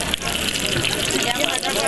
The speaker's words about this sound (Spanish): Acerquémonos allí a la compañera que está en la paila. A ver, aquí que hable la paila también.